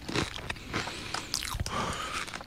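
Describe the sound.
Biting and chewing on a gyoza-flavoured food: crunchy, crackling bites and wet chewing that repeat in a quick, uneven rhythm, with no talking.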